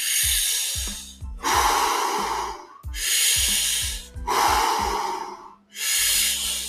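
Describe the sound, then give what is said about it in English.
Deep breaths drawn in during a breathing exercise: five loud, rushing breaths in a steady, even rhythm, each lasting about a second, with short gaps between them. “Just how far can you breathe in, right? Test your body.”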